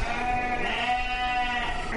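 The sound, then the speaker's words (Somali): Sheep and goats bleat continuously at a livestock market in Djibouti, a dense, steady chorus of overlapping, nasal calls that holds loud throughout with no pauses. “Haddaba V O A ayaa soo booqatay saylada xoolaha ee Jabuuti.”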